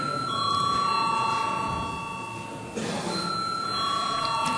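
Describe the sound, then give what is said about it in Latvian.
A parliament chamber bell rings before a vote: a steady, continuous electric ringing with sustained high tones that lasts the whole stretch, over a faint background murmur. “Lūdzu zvanu.”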